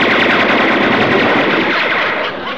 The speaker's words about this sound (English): Max, will you push the switch on the extreme left, please? It's a high-velocity, 50-caliber machine gun, Max.